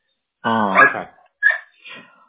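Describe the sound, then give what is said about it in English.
A dog whimpers and barks: a drawn-out whining cry rises in pitch, then two short, sharp yips follow, with brief quiet between them. “Goofy dog.”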